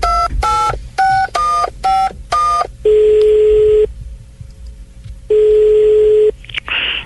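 A telephone number is dialed for a call to a school supply shop: six crisp keypad tones in quick succession, then two long, even ringing tones separated by a silent pause.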